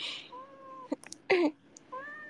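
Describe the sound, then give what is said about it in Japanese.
A cat meows as it climbs onto a person: two drawn-out, tonal meows with brief rustling and thumping bursts between them. “暑い暑いよ、猫様。どうしてどうしてそうやって乗ってくるの、かわいいけど。”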